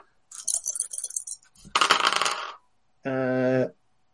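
Three dice rattle and clatter as they are rolled for a tabletop horror roleplaying game, giving a busy burst of small hard clicks and then a second tumbling clatter. A short tonal hum follows.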